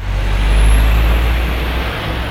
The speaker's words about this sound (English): Clapham is a busy neighbourhood in South London, and as traffic roars by the high street